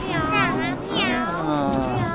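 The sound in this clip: A cat meows a few times in long, wavering, high-pitched cries that bend up and down in pitch, with a voice speaking alongside.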